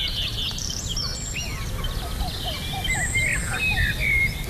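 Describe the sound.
Song of a redstart, a series of high, thin chirps and short warbled phrases repeated against a steady hiss of background noise.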